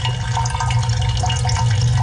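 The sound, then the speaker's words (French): Cider brandy (eau-de-vie) starting to flow from a still during distillation: a steady liquid trickle and rush over a low, constant hum, continuous throughout. “Cette eau de vie de cidre qui, comme par magie, commence à couler.”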